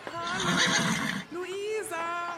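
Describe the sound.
A horse neighs in a loud, tonal whinny with quavering harmonics, dips briefly, then breaks into a second, shorter whinny.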